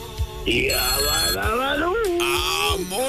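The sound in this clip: A telephone rings for an incoming call: two bursts of high, trilling ringing stand out over a loud, sweeping, warbling tone that glides up and down throughout.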